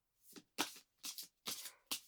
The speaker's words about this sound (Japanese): まずはカードをシャッフルしてと。